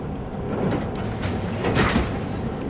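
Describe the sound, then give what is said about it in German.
Suitcases pass slowly on a moving airport baggage carousel at Frankfurt Airport, a steady mechanical rumble with a few soft clunks and rattles rising out of the constant drone. “Ein Koffer nach dem anderen fährt langsam auf dem Gepäckband vorbei.”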